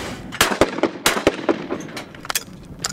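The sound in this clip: Shotgun shots at clay targets in a doubles round: a few sharp cracks in quick succession, the loudest coming in pairs, followed by fainter, scattered reports.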